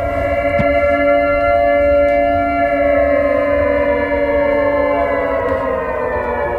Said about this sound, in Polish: Mamy taką zwykłą syrenę na budynku. Z tej syreny nie można wydzielić innego sygnału jak tylko taki.